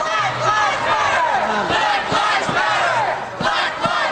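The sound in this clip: A crowd shouts in the streets outside a political convention on its first day: a loud, dense mass of raised voices yelling and chanting together without a break.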